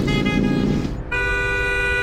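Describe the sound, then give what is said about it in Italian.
A car horn honking at an overtaking car: two long, loud blasts separated by a brief gap. “Ma devi proprio strombazzare come un cretino ogni volta che ti sorpassa?”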